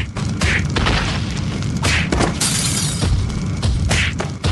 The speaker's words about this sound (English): Those brutes are breaking the foundation of that statue by that child. Surely that child will be crushed.